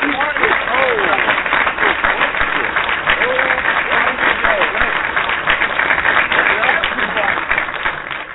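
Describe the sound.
Canned audience applause played as a sound effect, a steady and dense wash of clapping that holds at an even loudness throughout.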